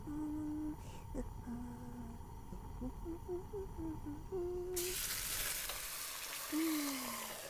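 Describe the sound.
Food sizzling in a frying pan during home cooking. A soft voice murmurs over a quiet background, then a bright steady hiss starts suddenly partway through and carries on to the end.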